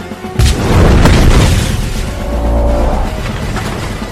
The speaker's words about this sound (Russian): Взрывная волна внутри дракона нарастает. Полковник в костюме берет автомат и прыгает через люк. Дракон взрывается.